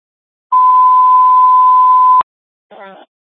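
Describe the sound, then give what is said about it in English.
Fire department radio alert testing tones for the Webster Fire Department: one loud, steady, mid-pitched tone holding for nearly two seconds, then a clean cutoff and a brief, quieter, wavering burst. “Fire alarm is testing tones for Webster Fire Department, KR-464, clear 1801.”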